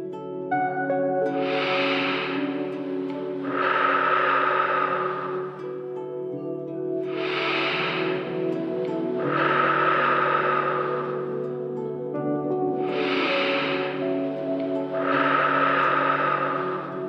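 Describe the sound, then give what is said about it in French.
Three slow, deep breaths, each an airy inhale followed by a longer hissing exhale, evenly spaced over a steady, sustained musical drone. “refermez le flacon et accordez-vous trois grandes respirations profondes afin de laisser votre corps vous parler.”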